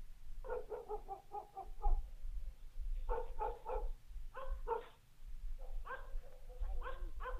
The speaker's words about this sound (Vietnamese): Đầu đó ho có tiếng chó cắn ma cứ nhấm nhẳng vang lên trong đêm tối.